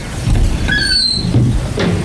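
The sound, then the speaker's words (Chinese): A door pushed open, giving a short high-pitched squeak and creak over a loud, steady noisy background. “杨振德放下菜刀，解下围裙，急急推门出去。”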